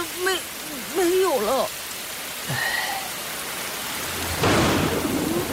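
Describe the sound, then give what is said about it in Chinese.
Steady rain hisses throughout, with a few tonal chirps early on and a louder, broader wash of rain near the end. “叔叔，要不到屋里避下雨吧？”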